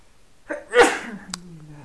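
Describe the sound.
A person sneezes once: a short intake leads into a sharp, forceful burst, followed by a faint low trailing tone.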